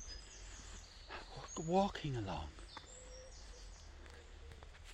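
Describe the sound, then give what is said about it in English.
Faint birdsong from a dove, a wren, a chaffinch and a blackbird on a morning dog walk in Cork, Ireland. Thin chirps and calls run through the background beneath a man's voice talking. “If you can hear it in the background, there's a dove, there's a wren, there's a chaffinch, and there's a blackbird.”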